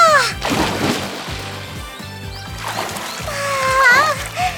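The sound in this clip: Someone jumps into a swimming pool with a sharp splash, followed by a second wash of water later on, over rhythmic music and a girl's voice.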